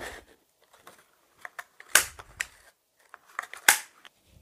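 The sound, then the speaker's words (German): Star-shaped craft hole punch punching stars out of brown glitter paper for handmade Christmas cards: sharp, snapping mechanical clacks, two standing out loudest, with lighter clicks and rustles scattered between them. “Natürlich brauchen wir auch noch hier einen Locher für Sterne oder ihr schneidet Sterne mit der Hand aus. Jetzt loche ich erstmal insgesamt sechs Sterne aus und zwar in Braun Glitzer.”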